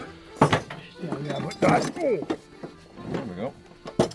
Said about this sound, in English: Tell me, there's a box open here, just the tools. Talk me through some of this stuff. What is it all for?